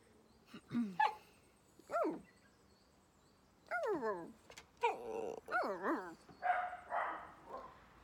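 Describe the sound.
A small dog whines and yelps in a series of short, high, falling cries with a few brief barks. The bursts are separated by pauses and stay fairly faint.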